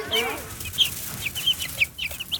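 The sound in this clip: Chickens cluck and chicks peep in a coop. Many short, high-pitched peeps repeat over low clucking and a steady hiss.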